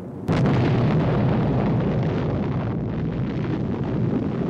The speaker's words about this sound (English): Less than a month after the Trinity test, the U.S. drops two atomic bombs in Japan. First on Hiroshima.